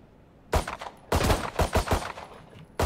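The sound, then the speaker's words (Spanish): Gunfire in a multiplayer shooter video game: several sharp bursts of rapid shots, separated by short gaps and ending with one last burst, with no talk over them. “Le estoy disparando yo”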